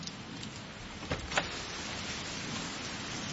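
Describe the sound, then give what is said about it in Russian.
A heavy night-time downpour pounds a car stuck in a puddle near Vrindavan, India. The rain makes a dense, steady wash of noise, broken by two brief knocks. “Такой ливень и на ночь глядя, да?”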